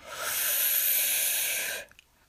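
A long, deep breath in during a guided relaxation exercise, a steady airy hiss lasting nearly two seconds that stops abruptly into quiet.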